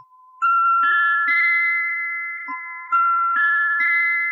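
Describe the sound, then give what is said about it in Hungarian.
An electronic telephone ring from a call placed to an observatory: bright, pure chiming beeps form a short melodic pattern that plays twice, clear and alone. “Már is hívom Jimmy barátomat a csillagvizsgálóból.”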